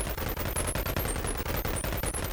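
A burst of gunfire in a video game: rapid, continuous automatic shots blur into a dense, loud rattle, with brief gaps breaking the stream a few times.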